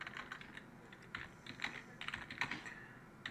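Quiet typing on a computer keyboard: many quick, light clicks in an irregular rhythm, a few keystrokes slightly sharper than the rest, with no voices.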